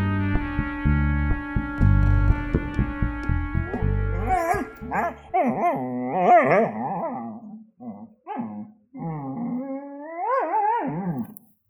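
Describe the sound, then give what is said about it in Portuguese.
A dog howls and whimpers in a string of tonal cries that bend up and down in pitch, broken by short pauses, loud and clear throughout. “pode latir agora e começar a sua contribuição também”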